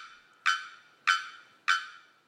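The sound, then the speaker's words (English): Loud, abrupt calls of a male bearded bellbird singing from the tropical forest canopy in Trinidad: three explosive, evenly spaced notes that each strike hard and fade quickly, with a fourth just beginning at the end. “In the tropical forest of Trinidad, a male bearded bellbird sings from within the tree canopy.”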